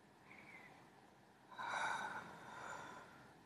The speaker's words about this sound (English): You like it when I breathe on it?